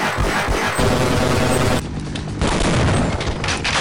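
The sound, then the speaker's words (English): Gunfire from guns in the video game Half-Life, a dense, loud run of rapid shots and heavy booms that continues without letup. “Anyway, the various sounds you hear when interacting with stuff also stick out to me. The guns sound powerful and just...”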